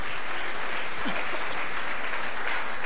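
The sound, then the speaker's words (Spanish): A church audience applauds during a service: dense, steady, even clapping that fills the whole stretch without pause, loud and continuous, with no talking over it. “Vamos a darle un fuerte aplauso al Señor,”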